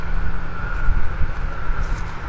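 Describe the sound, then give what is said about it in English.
Wind buffeting the microphone outdoors at the edge of a forest, a loud, uneven low rumble with gusts swelling and easing throughout under a faint steady hum. “I'm already getting more wind.”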